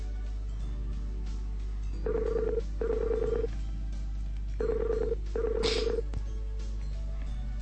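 Ringing tone of an outgoing telephone call: two pairs of short, buzzing, mid-pitched rings separated by a pause, over a steady low hum.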